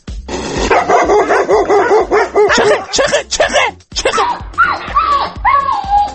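A dog barks loudly many times in quick, repeated bursts, mixing short barks and yips with whining, tonal cries toward the end.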